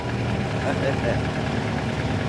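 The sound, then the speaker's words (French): A Cosworth car engine idles with a steady, low, rough rumble and vibration. The sound stays even and continuous throughout, with no clear revving. “ce moteur devrait permettre à la Cosworth d'atteindre les 225 km/h. S'il veut bien démarrer, évidemment. Au quart de tour.”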